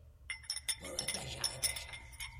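Glasses clinking as cachaça is served in a bar, many light, bright chinks and taps in quick, irregular succession at a moderate level.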